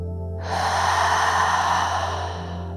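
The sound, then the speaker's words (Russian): Slow breathing during a guided breathing exercise: one long, soft, airy breath swells up and fades over a steady low hum that runs throughout. “Вдох. И выдох. Вдох.”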